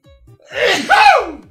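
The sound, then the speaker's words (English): One big, forceful human sneeze bursts out after a quick breathy intake, loud and alone. “I'm going to sneeze. Hold on. Here comes the sneeze. It's a big one. I can feel it.”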